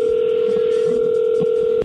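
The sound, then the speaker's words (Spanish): A telephone line is dialed to place a call. A steady, unbroken dial tone hums with faint keypad beeps beneath it, then cuts off abruptly near the end. “pues vamos a llamarle a tu esposa Gloria”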